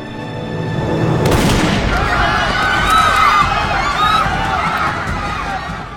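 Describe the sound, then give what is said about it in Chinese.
A loud gunshot boom in a TV drama scene during chaos at a crowded gathering bursts out of a steady crowd hubbub, which continues afterward. “没想到就在混乱中，这一枪打中了索菲亚。”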